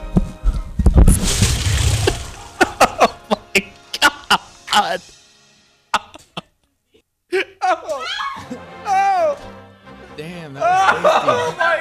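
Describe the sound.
A man vomits with a loud, gushing retch, then many sharp, irregular gagging bursts, followed by laughter near the end.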